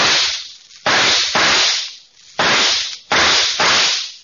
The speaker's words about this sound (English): Six shots from a Colt 44.